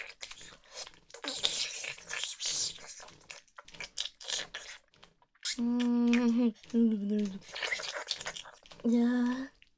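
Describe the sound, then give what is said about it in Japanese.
Wet licking and slurping sounds from a face-licking ASMR roleplay, a run of moist smacks and squishes filling the first half, followed by a woman's voiced, drawn-out sounds with a few short wet noises between them. “顔舐めしてあげるね。”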